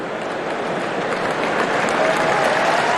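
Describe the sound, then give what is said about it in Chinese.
Crowd applause at a Wimbledon men's singles third-round tennis match, a dense, continuous patter of clapping that holds steady and fairly loud throughout. “把掌声送给林德科内西”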